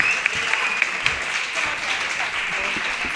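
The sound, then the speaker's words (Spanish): An audience applauds in a radio studio, a dense, steady patter of many hands clapping at an even level for the whole stretch. “Aquí la gente aplaude sola, no hay cartel ni nada. Así que realmente están aplaudiendo esta iniciativa.”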